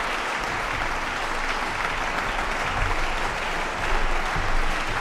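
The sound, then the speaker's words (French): An enthusiastic concert audience applauds in Victoria Hall, Geneva, after a performance of Haydn's Stabat Mater. The clapping is dense and steady and swells slightly near the end. “Et vous entendez la réaction du public de la salle, enthousiaste”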